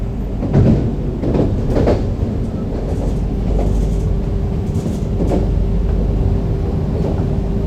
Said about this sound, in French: Déjà la gare d'Oulin. Oulin. Il n'a pas l'air de ralentir. Pourvu qu'il ne s'arrête pas trop souvent.